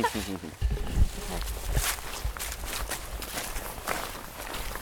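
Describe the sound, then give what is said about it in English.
Rustling of a waterproof jacket as someone walks among trees, a crisp, papery swishing that comes in repeated bursts with soft footsteps, fairly quiet and continuous. “That my waterproof makes so much noise.”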